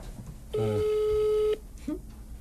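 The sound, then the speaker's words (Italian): A telephone ringback tone heard while placing a call: one steady, clear, mid-pitched tone lasting about a second, then a faint low murmur after it. “Allora, vediamo se risponde Mauro.”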